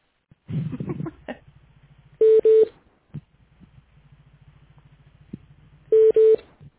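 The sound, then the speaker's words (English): Telephone keypad dialing tones as someone dials back into a group phone call: two short beeps in quick succession, a long pause, then two more, over a low hum. “I'm going to try and dial in one more time.”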